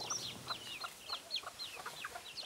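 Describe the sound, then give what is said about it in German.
Chickens clucking in a mixed poultry flock on a farm that includes a few bush hens. Many short, high, chirpy calls follow one another steadily. The sound is faint, with no talk. “Unter ihrem bunt gemixten Federvieh gibt es auch ein paar Buschhühner.”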